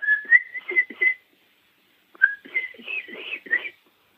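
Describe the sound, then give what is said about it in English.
Turkey poults giving the high, whistle-like kiki call: thin, fairly soft peeps in two bursts of several quick notes, separated by a short silence. “It's like a whistle. We call it the kiki.”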